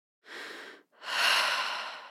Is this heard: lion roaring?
no